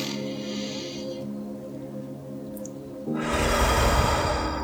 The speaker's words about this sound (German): Atme richtig tief ein durch die Nase.